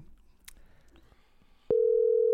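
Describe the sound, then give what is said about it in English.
A telephone dial tone cuts in abruptly after a stretch of faint handling noise, then holds as a loud, steady, unbroken single tone on the line. “I dialed it wrong. All right, here we go. 846”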